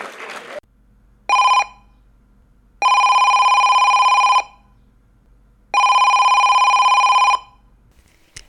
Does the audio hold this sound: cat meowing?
no